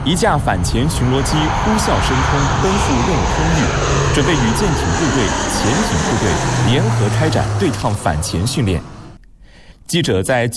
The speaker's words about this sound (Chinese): 一架反潜巡逻机呼啸升空，奔赴任务空域